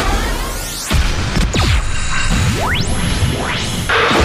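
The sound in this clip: A sound effect of windshield glass breaking: a harsh smash with several sweeping whooshes around it, loud and without any voices.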